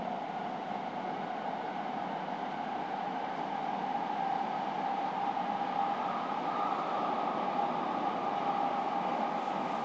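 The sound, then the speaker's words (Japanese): A subway train on the line to Tanigami near Shin-Kobe runs on its rails with a steady, even rumble and hiss. The sound holds constant throughout, with no voices. “この電車は谷上行きです。”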